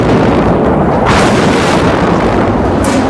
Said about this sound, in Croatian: Evo, sada je pala na granatu, kad možda 30 metara od nas.